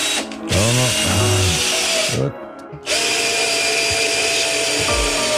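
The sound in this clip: A power screwdriver driving screws, its motor whirring loudly in two long bursts with a short drop between them, the pitch swooping up and down as it revs and bites.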